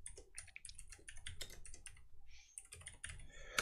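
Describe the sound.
Rapid typing on a computer keyboard while looking up a whiskey: many quick, irregular key clicks in dense bursts with brief gaps, and no talking.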